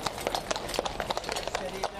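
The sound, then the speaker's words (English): Dozens of horses' hooves clip-clop in a royal wedding parade rehearsal, with many crisp, uneven strikes in a brisk patter and voices present beneath. “Dozens of horses led the parade as royal wedding organizers staged a full rehearsal”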